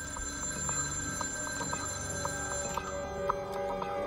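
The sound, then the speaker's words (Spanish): A telephone rings for an incoming call that the FBI records, a faint, steady electronic ring over a low, constant background hiss. “Tras varios días, una llamada es registrada por el FBI.”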